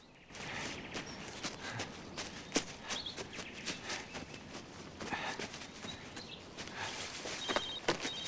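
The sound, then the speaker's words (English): Footsteps of a person walking, many quiet, crisp taps in an uneven rhythm with no voices. “As the way looks clear, he puts her down and lets her walk in front of him.”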